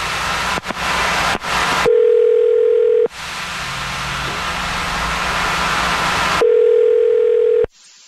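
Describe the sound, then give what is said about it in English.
A telephone line tone plays as a number is dialed: bursts of hiss, then a steady low tone for about a second, a longer hissing stretch, and the steady tone again before it cuts off. “Okay, I'm going to dial his number right now.”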